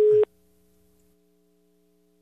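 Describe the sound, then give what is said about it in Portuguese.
A telephone busy tone after a dropped call, one short, loud, steady beep that cuts off abruptly and leaves a faint low hum, with no voices. “caiu aqui a ligação”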